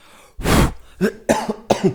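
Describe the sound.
A breathy blast of air is blown onto a microphone to clear off dust, making a loud whooshing rush, followed by a few short throat-clearing coughs.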